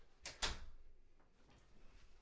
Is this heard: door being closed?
yes